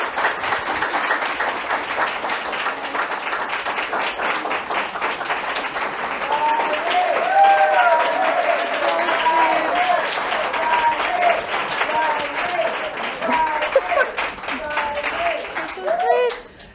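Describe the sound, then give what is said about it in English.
A studio audience gives a standing ovation: loud, sustained applause that swells in the middle and holds for more than fifteen seconds, with some voices mixed in, before stopping abruptly. “so for those of you online, that was actually a standing ovation of our studio audience, which is very, very sweet, very wonderful, very deserved.”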